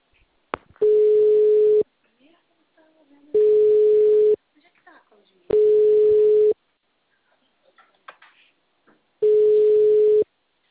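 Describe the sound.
A telephone ringback tone plays while the caller waits for an answer: four steady mid-pitched tones of about one second each at regular intervals, with quiet talk in the gaps.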